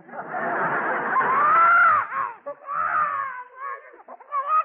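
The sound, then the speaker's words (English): A baby cries in loud wailing bursts: a long wail that rises in pitch and then falls, followed by shorter broken cries and whimpers. “They say the best way to make a baby stop crying is to make funny faces at him.”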